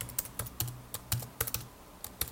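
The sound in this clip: Rapid typing on a computer keyboard as a message is written: many crisp, irregularly spaced key clicks with a few heavier strokes, heard alone without talk.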